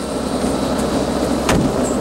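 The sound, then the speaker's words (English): A black helicopter touches down outside a diner, its loud engine roar steady and unbroken, with one brief knock midway. “Outside the diner, a black helicopter touches down.”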